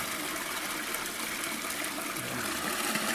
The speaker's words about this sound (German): Dann fängt man mit dem Läuterprozess an. Und das machen wir jetzt mal. Dann drehen wir jetzt mal den Hahn auf. Da kommt zuerst mal trübe Plömpe raus.